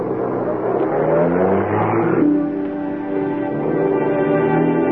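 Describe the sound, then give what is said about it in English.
A car drives off, its engine giving a steady, broad rumble with a smooth tonal hum that holds through to the end, with no voices. “She drives off. I stare after her.”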